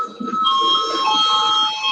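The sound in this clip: A parliament session bell rung to call deputies before a vote: a continuous, ringing electric bell tone that stays loud and steady throughout.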